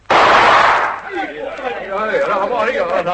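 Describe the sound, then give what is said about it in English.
A single loud gunshot, fired across the bow of a dinghy, cracks abruptly and rings out for nearly a second before voices talk over its fading tail. “Send a shot across the bow of the dinghy”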